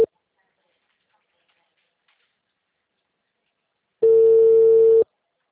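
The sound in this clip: Ringback tone on an outgoing phone call: one steady, mid-pitched electronic beep lasting about a second, following a long stretch of silence that opens with a faint click.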